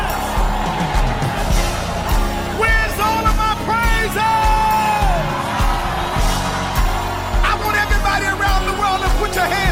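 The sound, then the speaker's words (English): An audience of worshipers shouts and whoops praise in a loud, dense crowd roar over steady music with a thumping beat. “let me hear the worshipers”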